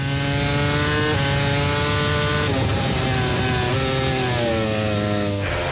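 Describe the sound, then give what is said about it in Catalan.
Racing motorcycles scream past during a grand prix at the Spielberg circuit, a continuous loud, high-revving engine whine from several overlapping bikes, the pitch climbing and dropping with gear shifts throughout. “Aquest és el so de les motos al circuit de Spielberg.”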